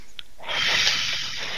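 A deep, forceful breath blown out during a deliverance prayer. A loud, sustained hiss of rushing air runs for over a second, heard alone without speech.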